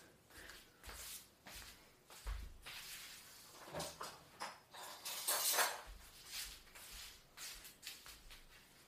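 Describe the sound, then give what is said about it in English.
Faint clinks, taps and scrapes of flour and cornflour being mixed in a bowl, many irregular small knocks with a brighter clatter near the middle, with no talking. “We will put it in and then mix it a little bit.”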